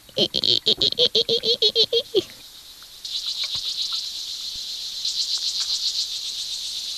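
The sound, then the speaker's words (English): A water boatman, a small, fast-swimming aquatic true bug, makes a very high, rapid, cricket-like chirping. The pulses come in steady repeated bursts. “What sort of sound does a boatman make? A very high, crickety sound.”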